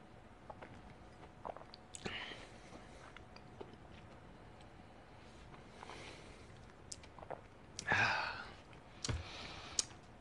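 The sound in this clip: Faint chewing of a bite of peanut-heavy chocolate bar, eaten alongside 1792 bourbon: soft wet clicks and squishy mastication scattered throughout, with a louder, denser burst of crunching near the end.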